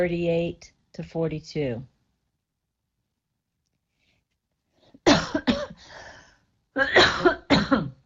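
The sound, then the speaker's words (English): A person coughs, with short voiced throat sounds first, then a pause, then several harsh, loud cough bursts in quick succession. “That was just dryness. I want to be your twin. I want to cough too.”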